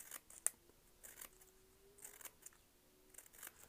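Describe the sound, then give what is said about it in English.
Faint scissors snipping paper into small tassels: several crisp, quiet snips land at irregular intervals, with one sharper cut near the start. “Snip, snip. Shall I be quiet for a minute so you can enjoy the snipping?”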